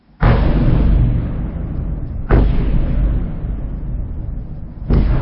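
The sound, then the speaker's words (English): Explosions from a Russian bombardment of Kyiv at night: three heavy booms at spaced intervals, each followed by a long, low rumbling roar that slowly fades. “We start in Ukraine and the all-too-familiar sound of Russian bombardment in the capital Kyiv overnight”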